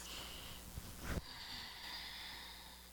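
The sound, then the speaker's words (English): A quick breath drawn in through the nose during a guided church affirmation, a single brief rushing inhale in the middle of an otherwise quiet stretch with faint steady background hiss. “If you want to take a deep breath in,”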